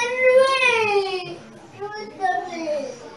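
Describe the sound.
A child cries at a religious teaching gathering: a wavering, high-pitched wail that slides downward, then a few shorter sobbing cries follow.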